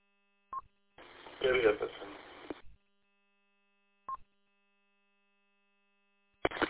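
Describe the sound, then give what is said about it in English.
Electronic telephone tones mark an incoming phone call, a few brief beeps separated by silent gaps, with a short burst of thin, phone-band sound between them. “Oh, incoming phone call. I think I know what this is. Do I want to take it?”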